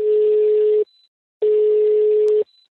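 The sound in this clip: Telephone ringing tone on a call to Khanty-Mansiysk: two steady, mid-pitched electronic tone bursts, each lasting under a second, separated by a short silence, heard alone.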